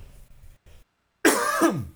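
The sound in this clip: A single harsh, loud cough bursts out during a live recording, following a few faint, brief sounds and a short silence.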